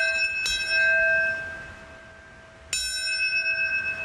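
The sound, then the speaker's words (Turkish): Bells ring at a memorial ceremony for attack victims, two clear metallic strikes about two seconds apart, each leaving a long shimmering, slowly fading hum of overtones, with no talk. “Çanlar, sirenler çaldı.”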